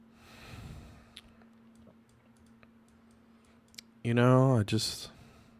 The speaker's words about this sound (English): I can double-click it again and open the layer style dialog box and hit color overlay, and I can then click on that and choose a blue color.